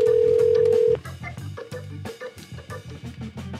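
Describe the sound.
A telephone call rings out while the caller waits for someone to pick up: a steady electronic tone holds for about a second, then gives way to a busier patterned run of repeated tones at a moderate level.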